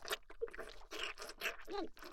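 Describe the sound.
Crunchy chewing of food close to the mouth: a run of dry crunches and scraping bites, fairly loud and steady, with no voice.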